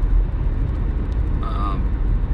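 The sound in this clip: Continuous low rumble and drone of a car heard from inside while driving home, steady and fairly loud throughout.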